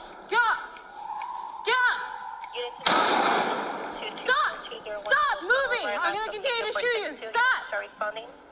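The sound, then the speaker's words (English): Gunshots ring out during a police confrontation with a suspect: a dense, rapid burst of shots near the middle. Shouting voices carry on loudly before and after the firing. “Shots fired.”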